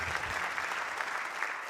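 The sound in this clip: Audience applause at a singing gathering: a thick, continuous patter of many hands clapping that runs from start to finish, moderately quiet and even in level, with no talk over it.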